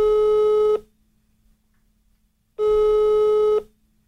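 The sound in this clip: A telephone call rings unanswered: two long, steady buzzing tones at a fixed pitch, each lasting under a second and separated by nearly two seconds of silence.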